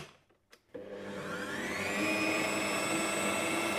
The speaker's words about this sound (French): 800 grammes de farine. Après, hop, on fait pétrir un petit moment.